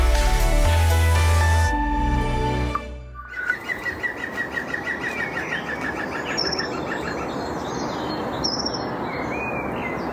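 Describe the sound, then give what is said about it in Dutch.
A green woodpecker gives its laughing call outdoors about 20 meters from a house. The call is a rapid run of many loud, repeated notes. It follows a few seconds of music, with more bird calls continuing afterward. “Henny Radstaak hoort vanuit huis dagelijks de groene specht lachen. Een meter of 20 van zijn huis. Hij liep naar buiten en nam hem op.”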